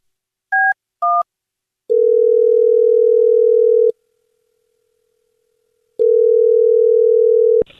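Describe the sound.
Telephone dial tone on an office phone after dialing a wrong extension: two short keypad beeps, then a loud, steady, low hum lasting about two seconds, a quiet pause, and the same steady tone again, ending abruptly.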